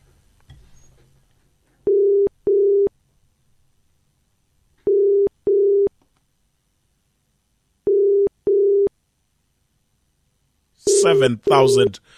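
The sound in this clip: A telephone call being dialed and connecting, with three pairs of short, steady electronic tones at even intervals over near silence, followed by a voice at the end.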